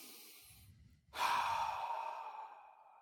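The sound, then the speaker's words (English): A deep breath is taken alone: a quiet inhale is followed by a long, loud exhaling sigh that slowly fades. “Take 3 deep breaths.”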